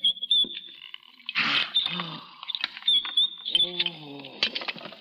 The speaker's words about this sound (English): Now, quickly. quickly slide the bolt. Then we shall see who has been mad.